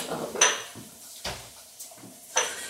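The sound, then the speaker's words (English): A cooking pan knocks and clanks against the stovetop as it is shifted to another burner, giving a few sharp metallic hits with quiet gaps between them. “We'll turn off this pan. I'm going to switch burner. Switch burners because...”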